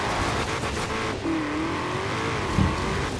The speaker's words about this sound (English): I'm getting in my Cayenne Turbo, I'm getting in my Porsche.